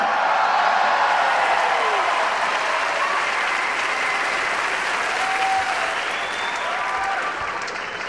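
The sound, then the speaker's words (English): Audience applause and cheering, a dense steady wash of clapping with a few faint whoops, holding for several seconds and tapering slightly at the end. “I threatened to kill them. They all go, yay!”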